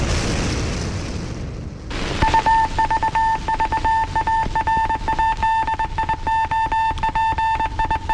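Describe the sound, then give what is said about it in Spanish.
Telegraph signal beeps: many short, high keyed tones in a quick, uneven Morse-like rhythm begin after about two seconds of loud, dense rumbling noise and carry on steadily to the end. “El telégrafo inconfundible”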